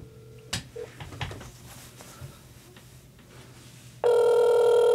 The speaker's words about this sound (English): Should we call him? Let's put him on voicemail real quick. Or in speakerphone. Yeah, I'm going to try.